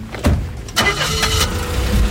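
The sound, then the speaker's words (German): An old Mercedes car engine cranks and starts with a couple of loud, abrupt bursts, then settles into a steady, broad running rumble. “Während wir spazieren, fährt Marx mit einem alten Mercedes zur nächsten Station.”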